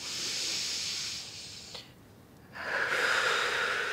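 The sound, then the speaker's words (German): Breathing in through the nose: two hissing, drawn breaths separated by a short quiet pause, the second one stronger and brighter than the first. “Lassen Sie uns mal gemeinsam durch die Nase einatmen, ja? Und nochmal.”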